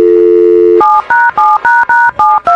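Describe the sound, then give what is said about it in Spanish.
A telephone number is dialed: a steady, loud dial tone gives way to a quick run of touch-tone keypresses, sharp two-note beeps in an even rhythm, with no talking. “Lista, vamos a marcar.”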